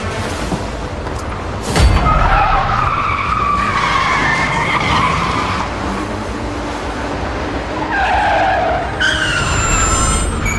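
Tires squeal as a getaway car speeds out of a parking garage and through the exit gate, a loud, sustained screech over engine roar with a heavy thump near the start.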